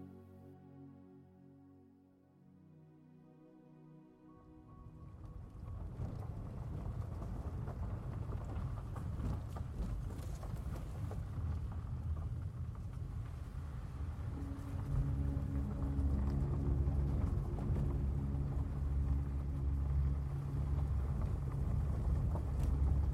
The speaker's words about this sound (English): feel the rumble of the car engine as you traverse the somewhat bumpy,